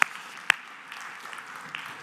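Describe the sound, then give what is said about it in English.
Applause from a church audience during a sermon: a faint, steady patter of many hands clapping, with a couple of sharper single claps standing out near the start. “Sure, let's clap for that.”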